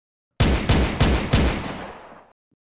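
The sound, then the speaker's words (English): A police officer's pistol fires four sharp, loud shots in rapid succession. Each booming crack rings on into a long tail that fades away. “Sneering, the cop raised his pistol and pulled the trigger.”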